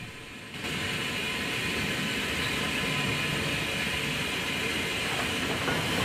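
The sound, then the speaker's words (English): The Flying Scotsman steam locomotive passes beneath a small stone bridge in the countryside. A soft lead-in breaks into a loud, steady rushing roar and hiss that continues evenly to the end. “Spectators lining a small stone bridge in countryside wave as the locomotive passes beneath them, momentarily engulfing them in grey smoke.”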